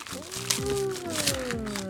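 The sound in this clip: Crinkly rustling of a strawberry yogurt package, Meiji Bulgaria fat-free 180 g, being opened, with soft crackles and crunches under a person talking.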